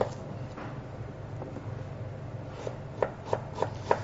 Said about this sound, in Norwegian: Krydderblandingen man kjører til en eh, korma, den består av ingefær, som vi bare hakker litt opp.